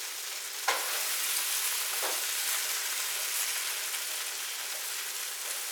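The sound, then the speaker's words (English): Food sears loudly in a pan with red chili powder and chaat masala, a steady, broad sizzling hiss that runs throughout, broken by two brief crackles in the first couple of seconds. “Oh, you hear that sear? I love it.”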